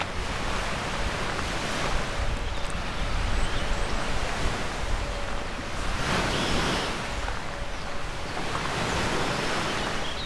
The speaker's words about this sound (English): It's early morning, and as you can hear, I'm along the shoreline, right next to a migratory hotspot.